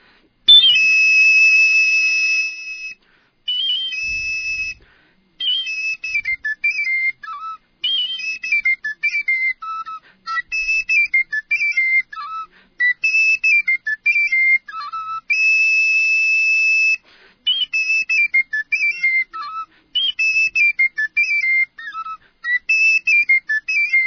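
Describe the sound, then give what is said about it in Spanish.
A traditional Ecuadorian ruku tone from the Chillos valleys is played live on a shrill, whistle-like instrument in short repeated melodic phrases with brief pauses between them, loud and without talk. “voy a tocar un tono de ruku que es del sector de los valles de los Chillos.”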